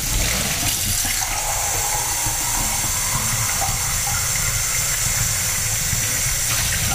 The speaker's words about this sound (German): So. Das spülen wir jetzt aus.